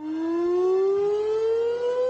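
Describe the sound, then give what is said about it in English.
Air raid siren warning of airstrikes during wartime: a loud, steady wail with strong harmonics whose pitch climbs slowly and evenly throughout, with no voices. “With an air raid siren.”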